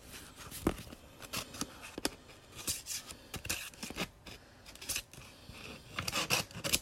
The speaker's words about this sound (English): Oh, that wasn't a great sound. Sorry. That was me opening the vintage envelope.